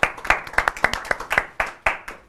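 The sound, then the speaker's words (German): An audience claps at a public event. The claps are sharp, loud and evenly spaced in a steady run, with no talk over them. “Und Vanessa, Applaus bitte auch.”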